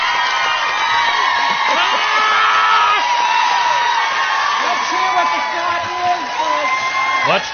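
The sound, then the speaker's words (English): A talk-show studio audience cheering, whooping and yelling, a loud continuous roar of many voices with high shouts rising out of it, unbroken for the whole seven and a half seconds. “Can't hear you over your stupid audience, Oprah.”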